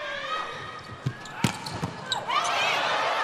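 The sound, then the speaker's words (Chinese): A volleyball serve during a match involving Japan, with a few sharp ball thuds in quick succession over crowd noise and voices, followed by a steadier swell of sound. “波鹏来发球”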